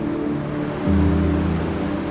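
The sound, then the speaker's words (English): Ocean waves wash in a steady, broad hiss over a low droning hum. The surf swells a little louder partway through. “The ocean gives our lives balance.”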